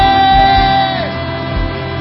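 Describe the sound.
A worship audience shouting and whooping together during a church service, a loud, sustained crowd roar over held musical tones that holds steady for the whole stretch.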